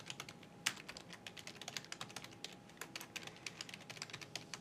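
Someone types a Git command on a computer keyboard: a rapid, irregular run of soft keystrokes with one louder tap early on. The clacking is quiet and steady, with no voices.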